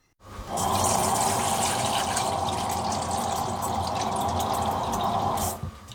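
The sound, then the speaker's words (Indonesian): Cold water pours into a large bowl for chilling spinach, starting abruptly with a steady splashing rush and bright dripping texture that runs evenly for several seconds before cutting off. “Masukkan air dingin ke dalam mangkuk yang besar.”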